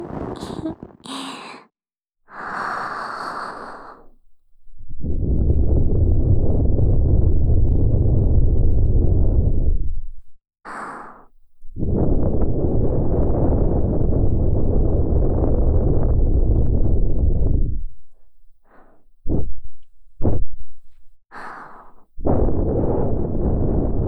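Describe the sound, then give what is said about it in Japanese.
Soft, airy breaths blown close into the ear for ASMR. A few long, gusty blows lasting several seconds each are separated by pauses, with shorter breathy puffs between them. “じゃあこれからすっごくフーフーして仕上げますね。”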